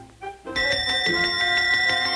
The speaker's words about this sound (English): The maid picks up a bell from the nightstand next to the sleeping teenager.